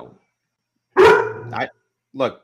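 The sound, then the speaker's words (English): An excited pet dog barks a few times, loud, yapping barks in quick succession with a short pause before the last one. “I understand your dog's excitement when we talk about Joe Lampe, but I do need him to just take it down a notch.”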